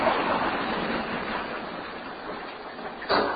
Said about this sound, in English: Somebody must have flushed. Okay. Water flowing